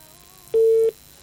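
Telephone busy tone after a dropped call: one steady mid-pitched beep, a short silence, then the start of another beep over faint line hiss.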